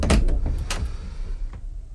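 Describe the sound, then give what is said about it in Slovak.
Knocking on a door: a few heavy, low thumps at uneven intervals, strongest at the start and fading toward the end, over a dull background rumble with no talking. “ale niekto mi klope na dvere. Veď už idem.”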